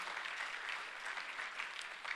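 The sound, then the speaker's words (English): An audience claps in praise during a church worship service: steady, dense, fairly faint applause that patters evenly throughout with no voices. “Oh, let's clap our hands to the Lord and give him praise.”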